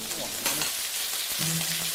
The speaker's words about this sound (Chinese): 热锅中下入冷油，再加入糍粑辣椒的红油，混合两种油，一来提香，二来增色。油热后加入糍粑辣椒。